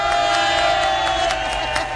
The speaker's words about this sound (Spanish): A ver esos aplausos desde Nissan de Garden Grove.